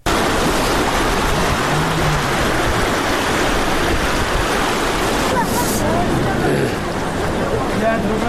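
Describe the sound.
Flowing water rushing in the Talani area of Uruzgan province after rains ended a long dry spell, a loud, dense, steady roar that continues unbroken from start to end.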